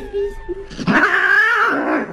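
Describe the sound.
A cat that has just been sold gives a few soft sounds, then a drawn-out, strained meow with a rough, yowling edge that holds for about a second before fading.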